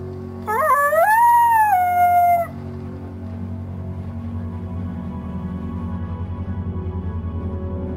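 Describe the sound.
A long howl rises steeply, holds a high wavering pitch, then drops and breaks off after about two seconds, echoing through desert air, followed by a low, steady droning hum that continues to the end.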